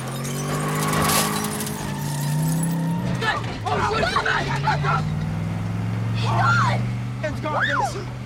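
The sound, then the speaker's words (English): A Ford Mustang swerves off the road and smashes through a bus stop shelter. Its engine drones steadily, then a burst of crunching and shattering glass breaks through, the engine roars on, and voices shout over it. “The Mustang drives through a bus stop shelter and the alien falls from the roof.”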